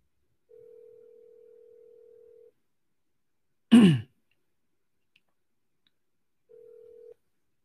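An outgoing sales call to a seller rings unanswered. Two long, steady, low ringback tones are separated by a silent pause, and a brief throat clearing falls between them.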